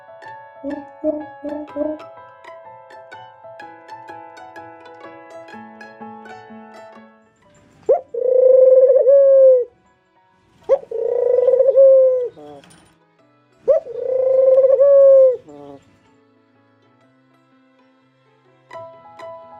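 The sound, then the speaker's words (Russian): Pigeon cooing: three loud, throaty, rolling coos in a row, each over a second long, after soft tinkling music at the start. “Голубь говорит ур.”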